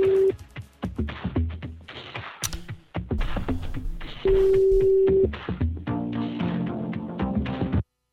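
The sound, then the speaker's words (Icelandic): Telephone tones of a call being placed: a short tone near the start and later a steady one-second ringing tone, both over dense, continuous background sound. “Og ég ætla að hringja í Höddi Magg.”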